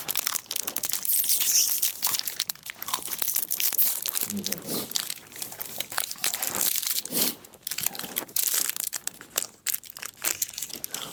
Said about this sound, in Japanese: ネイチャーカーから発売になってますプロテインバー、食べたいと思います。